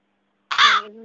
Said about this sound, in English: There's a crow in my room now. I did accidentally break the window, but a crow just came in.